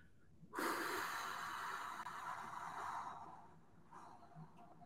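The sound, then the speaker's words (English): A person breathing out in one long, extended exhalation during a guided breathing exercise: a steady, airy rush that starts abruptly, holds for about three seconds, then fades, followed by a softer breath. “So we'll inhale, ready, and now exhale, extended.”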